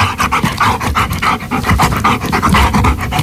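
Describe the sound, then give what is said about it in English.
A dog pants in many rapid, even, loud breaths that run without pause, with no other sounds. “I think the answer is a dog panting”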